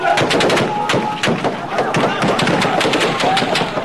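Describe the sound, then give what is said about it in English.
Gunfire from bodyguards shooting into the air at a protest in Ramadi, Iraq: many sharp, irregular cracks, some in quick bursts, loud against continuous crowd noise. “It only stopped when his bodyguards fired their guns into the air.”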